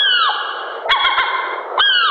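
Loud, harsh squawks from gulls that are attacking, a long sustained cry dropping in pitch at its end, then a few sharp clicks before another cry begins near the end.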